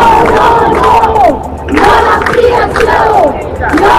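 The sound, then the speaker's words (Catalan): Thousands of protesters chant in the street against the expansion of El Prat airport. The crowd chant is loud and rhythmic, broken by short pauses between phrases. “Milers de persones han sortit al carrer contra l'ampliació de l'aeroport del Prat.”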